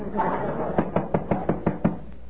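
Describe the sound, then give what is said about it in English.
Seven rapid, evenly spaced knocks on a door, sharp and moderately loud, following a brief stretch of voice at the start. “You want to answer the door, Lou”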